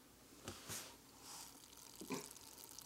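Thick raspberry-colored mixture with cream cheese popping as it slowly comes to a boil: a few soft, wet bubbling bursts over a faint hissing simmer.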